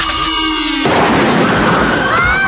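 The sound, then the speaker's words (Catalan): A sniper's .30-calibre rifle with a tactical telescopic sight fires one sudden, loud shot that cuts in abruptly, followed by a long, noisy rumbling decay. “és que realment el franctirador el dispara per ensenyar-li que no està fent broma”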